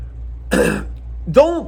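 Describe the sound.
A voice imitates nervous throat clearing with two short, throaty rasps separated by a pause, the second ending in a brief voiced hum.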